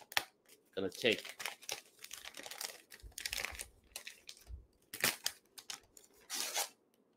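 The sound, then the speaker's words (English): Wrapping paper on a holiday gift crinkles and tears in irregular bursts of crisp rustling, with a few sharper rips, fairly faint throughout. “All right, so let's start unwrapping this, shall we?”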